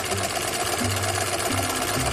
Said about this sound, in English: And then I take the nameplate and I sew it onto the uniform.